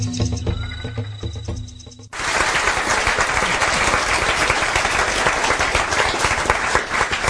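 Live audience applause in a radio station's performance space bursts in suddenly after a quieter opening and then holds as a loud, dense, continuous roar of clapping to the end.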